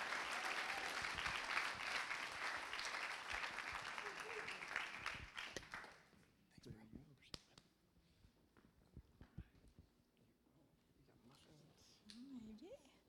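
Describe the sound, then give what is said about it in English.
Audience applause greets two speakers coming up to share at a morning gathering, a full round of clapping that dies away after about six seconds, leaving footsteps, scattered claps and quiet talking. “So would you welcome this morning Jason and Sharon as they come to share. Give them a hand this morning.”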